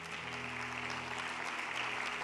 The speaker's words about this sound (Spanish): Dale un aplauso a Él si lo crees.